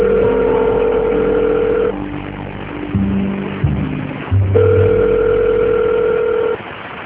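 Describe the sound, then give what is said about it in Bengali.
A phone call is placed as someone gets home: two longer bursts of steady electronic ringing tone with a few shorter, lower tones between them, all over a constant low hum, and no voices. “সে বাসায় ঢুকেই সোহানাকে phone দিল।”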